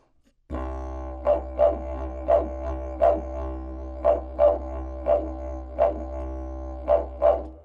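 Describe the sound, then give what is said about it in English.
A voice imitates dingo barks through a wind instrument played in Aboriginal style: about ten short, punchy bark accents fall in a loose rhythm over a continuous low, buzzing drone. “But you can get these short barks that make a rhythmic effect over the drone, like.”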